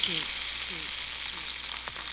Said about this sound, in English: Hey, catfish fried up dirty south food.